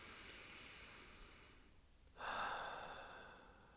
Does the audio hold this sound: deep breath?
yes

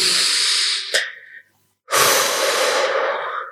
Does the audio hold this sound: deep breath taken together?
yes

